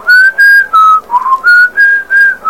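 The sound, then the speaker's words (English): A beggar whistles to a bird in a run of about seven clear, bright notes. Most notes hold a steady high pitch, and one softer, lower note falls in the middle. The whistling is loud and has no talk over it. “The beggar whistles to the bird,”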